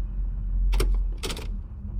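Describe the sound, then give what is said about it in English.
A door swings open at the top of a stairwell, heard as two short noisy bursts close together over a low steady rumble. “The door swung open.”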